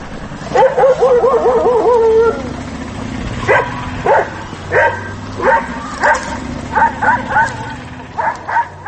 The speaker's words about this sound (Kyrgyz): Мынтип Баткен облусунун борбор болгон Баткен шаарында ары бери өткөндөргө сүр көрсөтүп, үрүп жүргөн жолбун иттерди ар бир эле көчө сайын жолуктурууга болот.